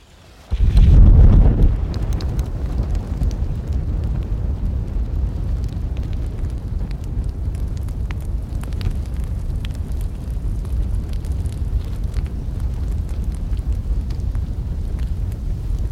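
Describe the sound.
A fire roars, opening with a sudden loud whoosh that settles into a continuous deep, rumbling roar with fine crackle, steady and unbroken to the end.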